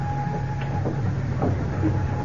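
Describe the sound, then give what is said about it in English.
Ambience of a London railroad station, a steady low rumble with a thin sustained tone running through it and a few faint knocks and thumps scattered across the short stretch. “It begins in a London railroad station.”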